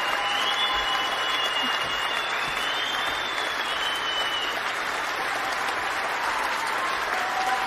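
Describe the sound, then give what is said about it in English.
A round of applause from a crowd fills the whole stretch, a dense, steady wash of clapping that holds at an even, fairly loud level from start to finish. “That's where you get the round of applause.”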